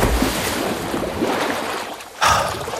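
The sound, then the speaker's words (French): A plunge into water: a low wash of moving water runs throughout, then one sudden loud splash bursts out near the end and trails off. “Je vous propose qu'on commence cette émission par un plongeon.”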